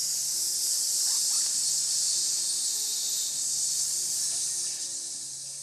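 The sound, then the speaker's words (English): A person makes a long, steady hissing 'S' exhale through the mouth during a breathing exercise. The bright airy hiss is unbroken from start to finish and eases slightly at the end. “another breath technique, which is the snake breathing, where you breathe in through your nose and out your mouth doing the”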